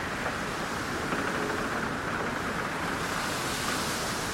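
High sea waves surging in a thick, unbroken roar of surf with wind mixed in, loud and continuous, with no voices.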